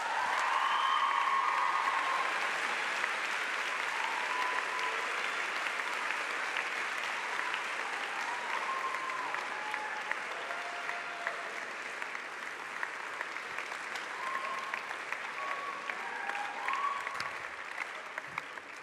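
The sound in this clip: Audience applause welcomes a speaker to the stage at a morning gathering, steady and sustained for nearly twenty seconds and fading slightly toward the end.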